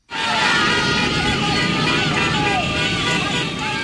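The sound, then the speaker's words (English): Dozens of motorbikes and cars full of flag-waving demonstrators fill a street protest in Caracas, Venezuela. They make a loud, unbroken din of engine noise mixed with crowd voices. “That's the sound of dozens of motorbikes and cars full of demonstrators waving giant flags and banners in support of the opposition leader”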